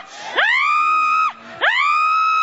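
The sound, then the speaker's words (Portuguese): A voice screams twice during a shouted exorcism-style prayer. Each cry swoops up into a long, loud, high held tone, and the first breaks off abruptly before the second begins. “Vai gritando pra Jesus queimar.”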